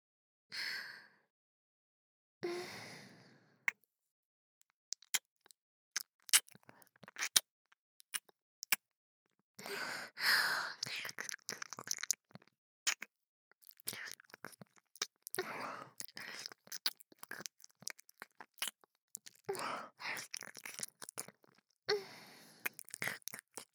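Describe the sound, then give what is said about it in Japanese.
Close, wet ASMR mouth sounds in an ear-eating role-play: many irregular soft clicks, smacks and crunchy nibbling bursts with occasional breathy exhales. Mostly quiet, with short gaps between clusters. “ダーリンの耳いただきます。”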